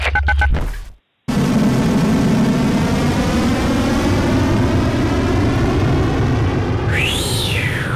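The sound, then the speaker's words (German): A rocket launch and takeoff sound effect: a few quick electronic beeps and a brief silence, then a loud, sustained roaring rumble. A sweeping whoosh rises and falls near the end. “Okay, alles klar, wir sind ready für den Takeoff. 3, 2, 1, Zündung.”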